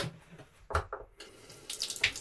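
Water runs from the tap into a large sink on a boat, a fluctuating splash and rush with irregular louder surges, heard alone without talk.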